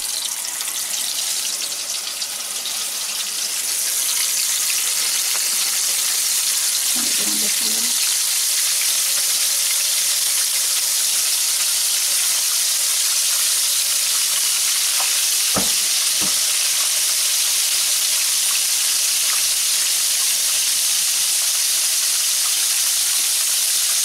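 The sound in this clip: Pickle-brined chicken pieces fry in hot oil in a pan, giving a loud, steady sizzle that holds throughout, with a few faint knocks and clicks from the pan partway through.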